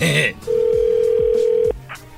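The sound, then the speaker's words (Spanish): A telephone line tone sounds during a redial of a dropped call: a steady, unchanging mid-pitched tone holds for just over a second after a brief burst of voice, then cuts off abruptly. “A ver, ahí se está marcando de nuevo.”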